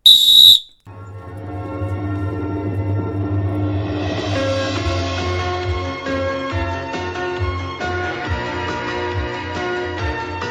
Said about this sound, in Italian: devo fare una cosa col mio fischietto d'arbitro che sognavo da tantissimo di farla